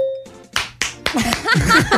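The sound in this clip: One person claps a few sharp, bright times during a trivia game after a correct answer, and people talk right after.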